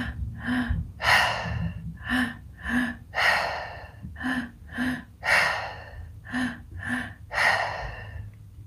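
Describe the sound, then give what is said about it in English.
Breaths drawn in through the belly and chest and pushed out through the mouth repeat in a fast, steady rhythm of many short gasping pulses, fairly faint, with no talk. “taking in as much breath as you can into the low belly, into the chest, and out through the mouth.”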